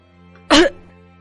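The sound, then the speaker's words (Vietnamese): A single sudden cough from an old man bursts out as one short, harsh, loud hack, set against a faint steady hum before and after it. “Lão Thông bất ngờ ho lên một tiếng”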